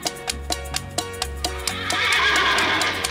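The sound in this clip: Horse neighing over a steady clip-clop rhythm and low tones, then a loud, broad whinny swells through the second half.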